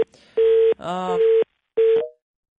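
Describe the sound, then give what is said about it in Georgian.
A steady telephone tone sounds after a phone line drops mid-call. The mid-pitched tone comes in a few separate pulses, with a brief buzzy, voice-like burst between them. “ელენე ხოშტარია იყო სატელეფონო ხაზზე და საუბარი შეწყდა იმის გამო რომ შეწყდა კავშირი.”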